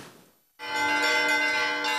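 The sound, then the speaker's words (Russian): Church bells ring at a bell-ringers' school at a church in Novosibirsk. After a fading earlier ring, a bell strikes and rings on with a bright, sustained, shimmering tone. “Великим постом полным ходом идет обучение колокольному звону в Новосибирской школе звонарей при храме Михаила Архангела на улице Большевистской.”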